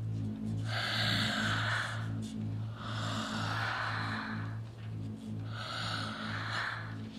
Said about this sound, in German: Atme. Atme. Tief ein folge meinem Rhythmus.